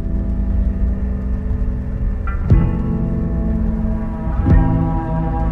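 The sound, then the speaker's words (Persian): A steady, droning vehicle engine hum, fitting a motorcycle pulling up beside a car, runs throughout at an even level. Two brief swells cut through the drone. “موتور کنار ماشین میاد و کنار پنجره ساحل قرار میگیره”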